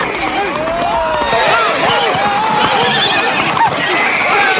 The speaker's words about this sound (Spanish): El negro caballo andaluz se desboca.